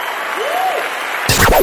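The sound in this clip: A church audience applauds Jesus Christ in steady, even clapping, with a brief voice rising and falling over it before the sound breaks off abruptly near the end.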